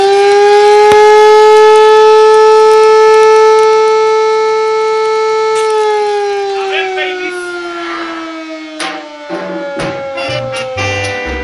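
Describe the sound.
A loud wailing alarm siren holds a steady, harmonic-rich tone for several seconds, then gradually falls in pitch as it winds down, with some irregular noise bursts toward the end.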